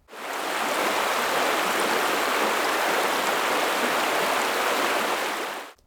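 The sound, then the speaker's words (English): Flowing stream with a dense, even rush of water, a broad hiss that is steady and fairly loud from start to finish, with no pauses and no other sounds. “Let's take a stream sound.”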